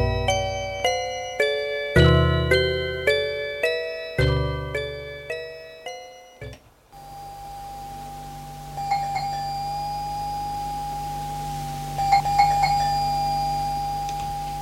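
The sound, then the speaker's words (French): A bell rings at a front gate as a melodic chime of repeated bell-like notes for several seconds, then gives way to a steady electronic hum with a few faint tonal blips. “À 10h, l'on sonne au portail. Elle va répondre à l'interphone.”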